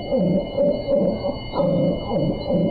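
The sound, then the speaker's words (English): A devocalized dog whose vocal cords were cut rasps and wheezes in a series of strained, hoarse, tonal bursts. They repeat in a steady, uneven rhythm and are loud and alone. “That's the sound of a dog whose vocal cords were cut just to stifle her voice. It's called devocalization, and it's done to cats as well. Devocalized animals rasp and wheeze,”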